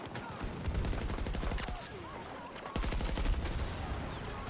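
Rapid gunfire in a video game shootout: many dense shots crackle in quick succession, loud and nearly continuous through the whole stretch, with a brief surge partway through.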